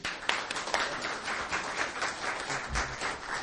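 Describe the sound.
An audience applauds to welcome a speaker, with dense, steady clapping of moderate loudness that continues throughout without letting up.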